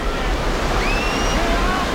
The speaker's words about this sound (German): Aber kaum ist die Brücke fertig, kommt ein Sturm auf.